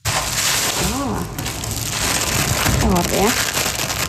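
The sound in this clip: Crinkling and rustling as 400 new pairs of solar eclipse glasses are unpacked from a box at Atlanterhavsparken in Ålesund, a dense continuous crackle with brief snippets of a voice over it.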